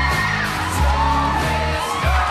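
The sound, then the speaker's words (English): An ice rink crowd cheering wildly at a figure skater's disco dance moves and slide across the ice, with loud, sustained whoops, yells and shouts blending into a continuous roar. “Chaz sends the crowd wild with some disco dance moves before hurtling towards them, sliding across the ice on his back.”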